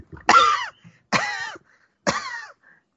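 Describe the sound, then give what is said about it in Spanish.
Three loud, rough throat-clearing coughs come in even succession, each a short, raspy voiced burst followed by a brief pause, with no speech around them. “Preparando mi garganta para decir lo que Miriam dijo.”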